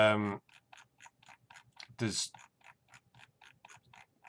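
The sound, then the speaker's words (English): Computer mouse wheel scrolling: many small, evenly spaced ticking clicks in a steady run, with a voice briefly speaking at the start and again midway. “can you hear the sound of my scrolling down there?”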